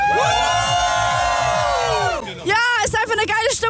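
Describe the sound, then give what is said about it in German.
A festival crowd cheers, shouts and whoops at a hot summer outdoor festival by a lake in Cologne. A sustained tone comes first, then a loud burst of excited voices. “Also ihr hört's, die Stimmung hier beim Rainbow Festival in Köln am Fühlinger See ist richtig klasse.”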